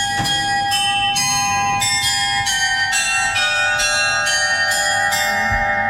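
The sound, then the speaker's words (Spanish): Bells of a medieval astronomical clock ring inside a cathedral in a quick run of about ten bright, overlapping chimes at shifting pitches, each strike ringing on beneath the next. “Así que lo grabé yo este sonido en la catedral de Münster, en el interior, que guarda un precioso reloj astronómico medieval.”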